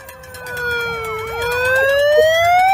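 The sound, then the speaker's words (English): A siren played through a vehicle's horn rather than a police siren: a loud warbling wail that wavers rapidly, dips slightly, then glides steadily upward in pitch toward the end, with no voices. “Police siren, that's a siren on their horn. That's not a police siren, it's a siren on their horn.”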